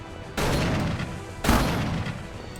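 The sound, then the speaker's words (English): Shotgun gunfire in a video game: two loud, booming blasts, each followed by a dense, sustained roar of noise that fills the short clip. “So we're just kind of running around while we get shot at by shotguns.”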